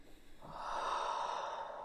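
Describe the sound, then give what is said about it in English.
A single deep inhale through the nose during a guided tapping session: a smooth, airy rush that swells quickly and holds steady for over a second. “Taking a deep breath in.”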